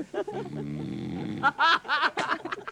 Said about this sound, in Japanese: 宮脇島田中荘、夜も静まってまいりました6畳で一人大の字で寝ていらっしゃいます。男の人、いびき取ります